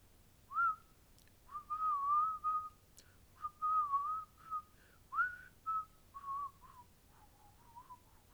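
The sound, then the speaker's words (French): A person whistles a tune while arriving, producing a string of clear, mid-high notes, some held and wavering and others short, in an uneven melodic rhythm, fairly soft and with no other sound. “décidé qu'il arrivait en sifflant”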